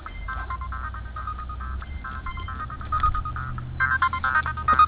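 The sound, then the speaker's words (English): A mobile phone ringtone plays as a repeating series of short, bright electronic tones with a narrow, phone-like quality, growing noticeably louder toward the end. “That's my phone!”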